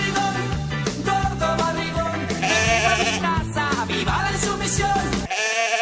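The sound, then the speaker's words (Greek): Sheep bleating, wavering bleats layered over a rhythmic musical backing, fairly loud throughout and cutting off abruptly near the end. “Πρόβατα ανταποκρίνονται.”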